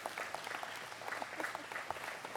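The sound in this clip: A church audience applauds to welcome a newly baptized child into the community, a steady patter of clapping hands throughout, soft and even.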